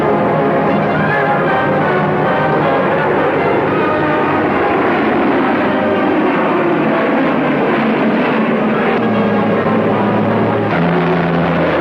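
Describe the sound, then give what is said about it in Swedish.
Loud, unbroken roar of a huge fleet of four-engine transport aircraft, with Dakotas and Halifaxes towing big gliders, carrying an airborne army toward Arnhem. The dense engine drone holds steady throughout with no talk. “Kusten flyger i förfärande styrka den oöverskådliga flottan av fyrmotoriga transportplan, Dakota-maskiner och Halifax-plan”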